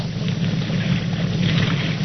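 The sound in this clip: A motorboat out on the water gives a steady, low engine drone with a constant wind-like rush over it, with no voices.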